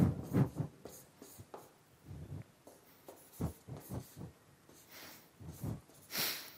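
Writing strokes scratch out in many short, uneven bursts, with sharp rasping accents between quieter stretches and no talking over them.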